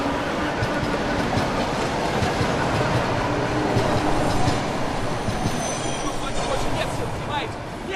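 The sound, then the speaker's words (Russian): An express electric train pulling away from a platform gives a loud, continuous rumble and rattle of wheels on rails, with high squeals of the wheels, and voices talking over it throughout. “Экспресс уезжает.”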